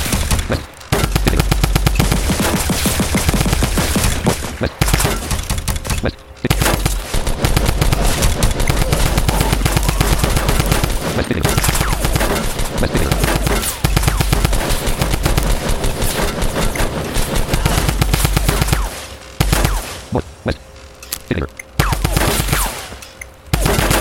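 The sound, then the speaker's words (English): Rapid automatic gunfire in a video game rattles on loudly and almost without a break, with only a few short pauses between long bursts. “I'm wasting so much bullets.”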